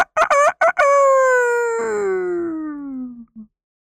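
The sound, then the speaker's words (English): A rooster crows loudly at morning with a few short, choppy notes, then one long, strong, drawn-out call that glides slowly downward in pitch before breaking off. “from that day until this day, every single morning, Rooster gets up and wakes up Sun with a nice, strong,”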